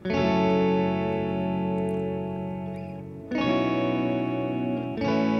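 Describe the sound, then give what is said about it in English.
Layered distorted electric guitar rakes and picked, strummed chords ring out, three loud chord attacks each left to sustain and decay, dense and buzzy with no voices. “So together the rakes make this sound.”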